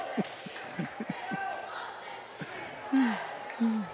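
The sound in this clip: A basketball is dribbled during a high school boys' game between Exeter and Daniel Boone. Several sharp, thudding bounces land in a quick, steady rhythm over constant background crowd noise.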